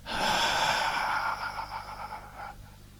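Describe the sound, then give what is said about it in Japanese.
A long, steady breath out through the mouth during a belly-breathing exercise as the abdomen expands. It is a single airy exhale that holds for about two seconds, then fades away. “じゃあ、膨らましながら吐きますよ。”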